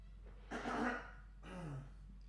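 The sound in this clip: Someone clears their throat in two rough, raspy bursts, the first stronger, fairly quiet overall, with a steady low hum underneath.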